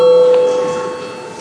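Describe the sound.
Bell rung in a parliament chamber to call a vote, heard as a sustained, steady ringing tone that starts loud and slowly fades, with no talk over it.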